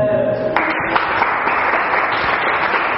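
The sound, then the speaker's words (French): A church audience applauds, the clapping starting abruptly after about half a second and continuing as a steady, moderately loud patter of many hands. “Acclame le Seigneur”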